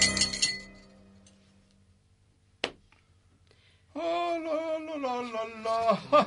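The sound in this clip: Window glass is smashed in with a single sharp, bright crash that stands out against near silence, with some earlier noise before it and a person talking afterward.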